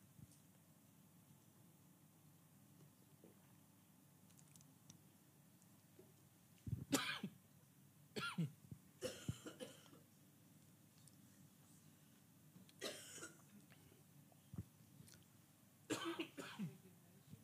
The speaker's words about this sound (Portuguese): Engasguei-me, peço desculpa.